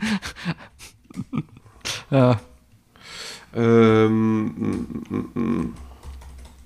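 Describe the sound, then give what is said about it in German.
Typing on a computer keyboard: bursts of fast, irregular key clicks mixed with breathy, voiced sounds that come and go. “Habe jetzt meinen Kopf einfach nur aus und schreibe einfach nur wirklich runter.”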